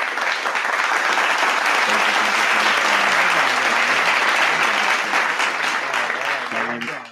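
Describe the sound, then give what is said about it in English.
A studio audience applauds and cheers loudly and continuously for a returning guest, a dense wash of clapping with excited voices that holds for about seven seconds. “Audience was really excited for that. Really excited for me.”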